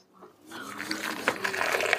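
Water is poured as tea is made in a mining town in Niger: a trickling liquid rush that builds after a quiet start, then runs steadily with small splashes.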